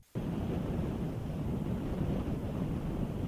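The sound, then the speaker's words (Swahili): Steady rumble and wind noise aboard a boat carrying refugees from Yemen toward Obok port in Djibouti, starting abruptly and continuing evenly throughout. “Safari ndani ya boti ikiwa na wakimbizi kutoka Yemen. Mwelekeo ni hapa bandari ya Obok nchini Djibouti.”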